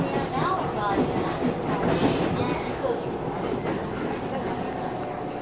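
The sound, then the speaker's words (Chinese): A train at Rinan railway station on Taiwan's coastal line gives a steady, low rumble of rolling carriages with faint rail clatter that continues evenly throughout. “最后，我们抵达了海线的第二宝日南车站。”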